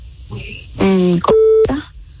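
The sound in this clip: A telephone call is dialed: a single short, steady electronic tone sounds between stretches of talking.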